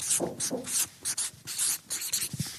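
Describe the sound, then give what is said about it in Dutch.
A word is written down by hand in several quick, scratchy strokes, each a short burst of dry rubbing noise with brief gaps between, heard alone without speech. “Ik schrijf het even op.”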